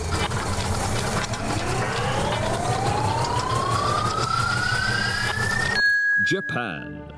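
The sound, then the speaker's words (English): A random-generator sound effect: an electronic sweep climbs steadily in pitch for almost six seconds over a busy background. It cuts off abruptly and is followed by a few brief bright tones. “Let's fire up the random generator,”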